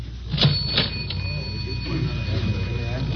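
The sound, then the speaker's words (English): A cigarette vending machine is worked with loose change, giving a few sharp metallic clicks and clinks close together early on, followed by quieter mechanical rattling. “Grab some change for the cigarette machine.”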